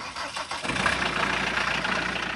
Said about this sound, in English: That's a 15-year-old Volkswagen Jetta diesel. Yeah, you definitely know it's a diesel, or someone will tell you that there's something wrong with your car.